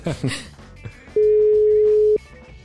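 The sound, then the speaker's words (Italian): Ringing on an outgoing telephone call: after brief talk, a single steady, loud ringback tone lasts about a second and then stops. “Allora suona, speriamo che ci risponda.”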